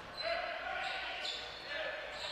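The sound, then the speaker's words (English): A basketball is dribbled on the court during a game between Van Buren and the Pointers, the bounces faint and soft beneath crowd noise and a voice talking. “Day into the front court for the Pointers. Dribbles to the top, now goes over to the right side.”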